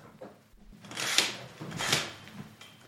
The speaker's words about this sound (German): ich muss mal kurz den fucking Vorhang weiter aufmachen jetzt hier.